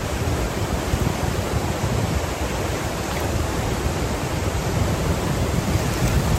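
Flowing water of the polluted Piracicaba river makes a steady, dense rushing roar that holds at an even loudness throughout, with no pauses or distinct splashes.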